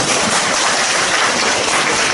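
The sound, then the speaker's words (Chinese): Warm audience applause at a crosstalk comedy show in Nanjing, a dense, unbroken roar of clapping at steady loudness with no voices over it. “谢谢各位热情洋溢的掌声。”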